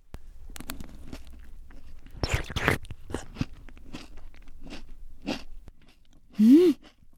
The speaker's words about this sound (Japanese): では早速ポモリアを一ついただきます。